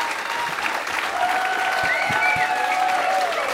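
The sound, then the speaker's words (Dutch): An audience applauds wildly after a live concert by the Nederlands Blazers Ensemble at the Wonderfeel festival, a dense, steady roar of clapping that holds at full loudness throughout. “Oh, de mensen werden wild, dat hoort u wel. Een uitzinnige tent voor het Nederlands Blazers Ensemble.”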